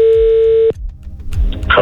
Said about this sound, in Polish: ja wykręciłem numer, więc dzwonimy do Roberta Burnejki.